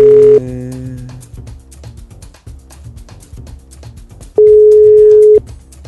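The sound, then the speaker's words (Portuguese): The ringback tone of an unanswered telephone call: a steady mid-pitched tone sounds briefly at the start, then returns for about a second after a long quiet gap. “Tá chamando aqui. Ela não tá atendendo. Ela não viu a ligação ainda.”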